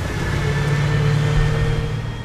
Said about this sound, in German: Der erste Wagen des Konvois passiert die Straße.